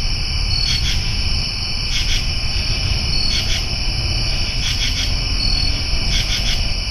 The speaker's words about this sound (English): Sounds at night in the trees of Cleveland.